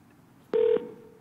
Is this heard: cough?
no